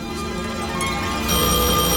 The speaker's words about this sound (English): Answer that phone.